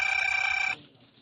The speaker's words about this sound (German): Das Telefon riss ihn aus seinen Erinnerungen.